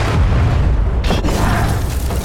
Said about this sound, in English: Close to the blast, windows shattered, timber snapped, doors flew from their hinges, people were knocked flat.